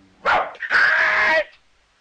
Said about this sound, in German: Halt! Nicht aus der Werkstatt gehen, großer Hund!